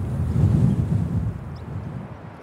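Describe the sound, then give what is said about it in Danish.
Wind buffets the microphone on the Wadden Sea shore in a marsh as the tide turns, a steady low rumble that swells early and eases off toward the end. “Det er så Vadehavet, som ligger herude. Ja, det er Vadehavet, og, og der er på vej til at blive lav, eller højvande nu.”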